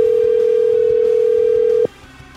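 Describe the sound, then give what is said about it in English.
Telephone dial tone sounds as a phone line is opened to dial a call. A loud, steady hum at one pitch runs for nearly two seconds and then stops abruptly, leaving only faint background noise. “Now, let's dial the phone.”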